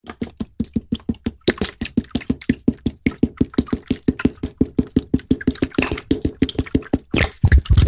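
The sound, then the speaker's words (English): Water gurgling out of a bottle, many rapid, evenly spaced glugs in a steady rhythm, ending in a louder, splashier rush. “The sound you just heard was a recording of water gurgling out of a bottle.”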